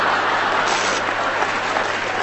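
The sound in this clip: Audience applause, continuous and even clapping from a crowd that stays loud throughout the short stretch, with no voices rising above it.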